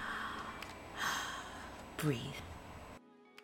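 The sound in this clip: A deep breath taken in and let out, with a loud rushing intake and a voiced sigh over a soft steady background, ending in silence.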